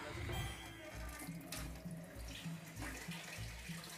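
Water runs steadily from a tap in a continuous, rushing splash that stays fairly even and soft throughout.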